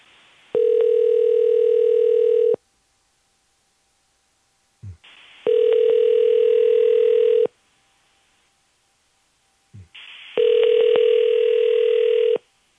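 A telephone ringback tone sounds on a dialled call that goes unanswered: three long, steady buzzing tones of about two seconds each, separated by silent gaps, with faint clicks just before the second and third tones.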